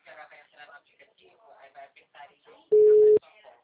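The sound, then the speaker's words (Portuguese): Telephone call being placed, with a single steady mid-pitched phone tone lasting about half a second, cutting in amid a stretch of talking. “Vou ligar pra ele.”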